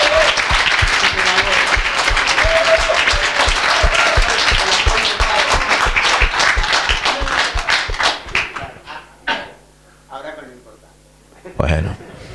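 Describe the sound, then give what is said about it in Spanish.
Applause from an audience at a talk, given for a man's 65th birthday, a dense run of quick claps for about eight seconds that then thins out and stops as a voice begins to speak. “O sea que le podemos dar un aplauso de felicidad, que los cumpla feliz.”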